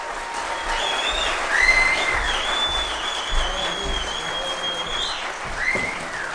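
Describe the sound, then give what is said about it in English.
An audience at Community Bible Church applauding to welcome guest Doyle Dykes: a dense, steady wash of clapping that holds at an even level throughout. “Give a warm Community Bible Church welcome for Doyle Dykes. Give him a big hand.”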